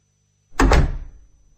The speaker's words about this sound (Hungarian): Kisétálhattam volna, és erre tessék. Rám zárták az ajtót.